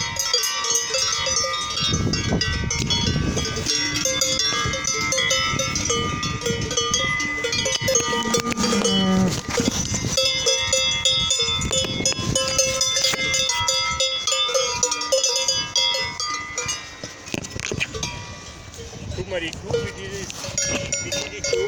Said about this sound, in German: Jetzt kommt uns die ganze Herde entgegen.